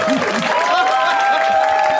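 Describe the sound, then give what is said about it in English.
Audience applause at a show rolls on as a steady, dense patter of many hands, with a few voices and a sustained whistle-like tone riding over it. “That was like a movie slow clap. That was a golf clap that turned into just a wave.”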